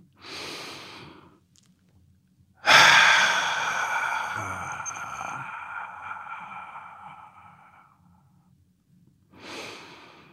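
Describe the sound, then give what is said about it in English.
A deep breath: a short, soft inhale, then a long, loud, partly voiced sighing exhale that fades slowly over several seconds, followed by another brief inhale. No talking. “let's take a deep breath”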